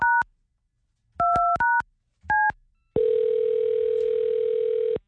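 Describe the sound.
A telephone call is placed to a contest winner: a few short two-tone keypad beeps sound in separate bursts, then a continuous lower single-pitched line tone holds steadily for about two seconds.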